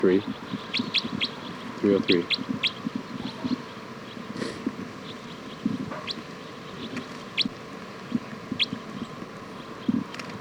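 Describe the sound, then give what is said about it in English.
Bird chirping in many short, high, thin notes scattered irregularly across ten seconds, faint and intermittent over a low steady background hum. “This is bird”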